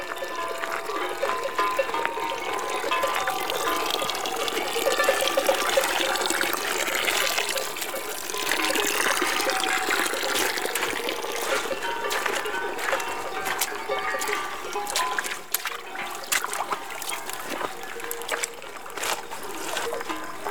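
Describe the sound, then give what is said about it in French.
Water at a watering hole, a continuous splashing and trickling wash with small bright spatters, steady in level throughout. “Maintenant, on va s'éloigner de ce point d'eau.”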